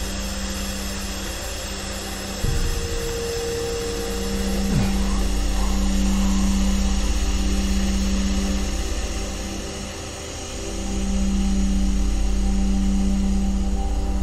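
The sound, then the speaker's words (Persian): A van's engine hums steadily as the van starts to drive off. The low drone swells twice as it pulls away. “راننده ماسک شیمیایی زده. ون راه میافته.”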